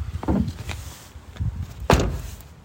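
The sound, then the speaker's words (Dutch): Lid or flap being pushed shut. A few dull knocks and thuds come at irregular moments, and the sharpest, loudest one lands near the end. “Voorzichtig de klep dicht doen, hè.”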